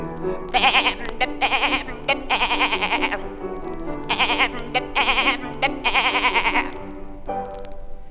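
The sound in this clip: A goat bleats many times in a row, quavering, vibrating bleats in short bursts and longer stretches, loud over a steady tonal backing.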